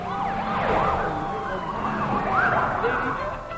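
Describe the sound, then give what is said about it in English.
Sirens of two police cars going by on a street, overlapping wailing sweeps that rise and fall continuously over a steady traffic rumble. “On the street, two police cars go by.”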